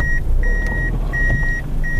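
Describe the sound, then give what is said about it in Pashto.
Reversing beeps from a black Fielder car maneuvering to park by the road: a steady high tone repeating in several pulses of uneven length over a constant low engine rumble. “دا د سړک پر سر خپل تور رنگ فلډر موټر شاو مخ ته کوي ترڅو قانوني و دروي.”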